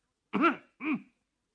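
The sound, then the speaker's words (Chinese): A man coughs forcefully and deliberately: two short, voiced bursts, the second a little shorter and softer, followed by silence. “他心里一着急，便用力咳嗽了一声。”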